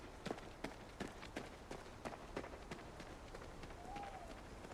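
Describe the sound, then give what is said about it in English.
A woman's footsteps at a brisk jog in darkness, many faint, evenly spaced steps in a steady running rhythm. “She turns once more and continues on her way, this time at a brisk jog.”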